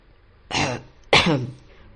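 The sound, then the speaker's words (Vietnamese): Two dry coughs in quick succession, each a short harsh burst, heard alone against a quiet background. “Triệu Thanh Hoài ho khan hai tiếng rồi nói:”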